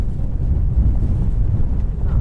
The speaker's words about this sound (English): That's the sound of one of the world's fastest sailing boats powering along at nearly 70 kilometres an hour.